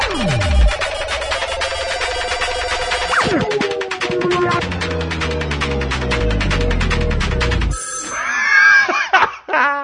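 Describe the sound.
Telephone ringing jingle: loud, bright, repeated ringing tones layered over a steady musical bed that shifts to a different sound near the end.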